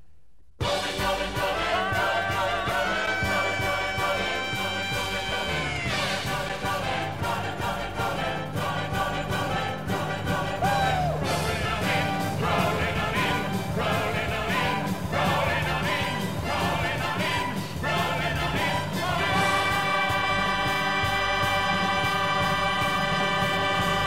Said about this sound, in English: Boom! Great bumper music. Probably bad news if we're playing it.